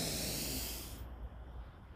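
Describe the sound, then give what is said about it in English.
A deep breath is drawn in during a guided breathing exercise, heard as a soft, airy hiss lasting about a second before it drops away to near silence. “Take a deep breath in”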